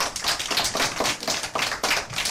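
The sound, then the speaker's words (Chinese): Classroom applause from students after a classmate's answer. Many hands clap in quick, uneven pulses, fairly loud and sustained across the whole stretch, with no voices. “就是这些，很好，掌声。”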